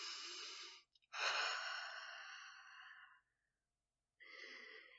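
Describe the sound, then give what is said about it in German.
Deep breathing during a guided self-confidence exercise, with a deep inhalation among three airy breath sounds separated by short silences, the middle one long and drawn out. “Dann atme einmal ganz tief nochmal ein”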